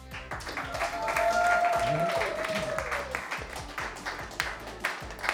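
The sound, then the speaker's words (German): Audience applause at a winter market event, a continuous wash of crowd clapping with people talking over it. “Ich gehe die Liste von oben nach unten durch und ich wünsche Applaus von jedem.”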